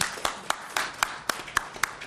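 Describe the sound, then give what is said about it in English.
Applause after a congratulation at a members' meeting: eight faint, evenly spaced claps in a steady rhythm, with no other sound. “And we do applaud.”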